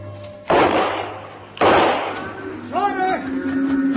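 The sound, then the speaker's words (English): Two gunshots crack out at night near a cattle herd, each a loud, sharp blast with a long fading tail, about a second apart, followed by softer wavering sounds over a low drone. “Shots. Yeah, where'd they come from? I don't know, but it's got the herd riled up.”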